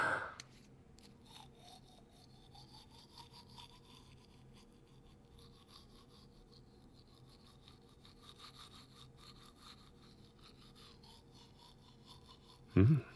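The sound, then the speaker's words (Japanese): A toothbrush scrubs the upper teeth in quick, soft, scratchy strokes that rub on steadily and faintly throughout, ending with a brief louder bump. “うん、いい感じ。次は下の歯磨くからね。”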